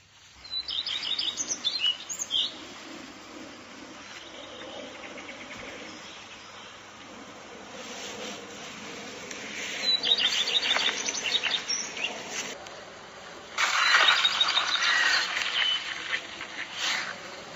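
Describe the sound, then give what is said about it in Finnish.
Common redstart and hooded crow calling: short, high chirping phrases come in a few bursts near the start and again later, with a harsher, louder stretch of calls toward the end, heard alone against a faint steady background. “Ja sieltä kuului selkeästi leppälintu, sieltä kuului varis, eli noi 2 uskallan tunnistaa.”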